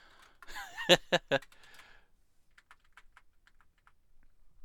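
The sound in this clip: Typing a command on a computer keyboard: a few loud clicks, followed by many faint, quick keystrokes.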